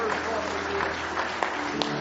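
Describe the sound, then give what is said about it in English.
An audience gives a hand clap of praise, a steady bed of applause over sustained tones, with a few sharper claps near the end. “Let's give Him one more hand clap of praise if you love Him tonight.”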